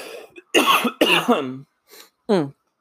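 A few coughs and throat-clearing sounds from a person with a piece of macaroni stuck in the throat: loud, rough bursts, some strained and voiced, separated by short gaps, with a faint small sound between them.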